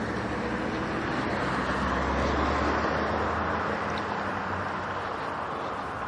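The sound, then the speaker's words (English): Road traffic streams past on a busy morning, a dense, steady roar of cars with no single pass standing out and no gaps. “Move it. Vehicles everywhere this morning.”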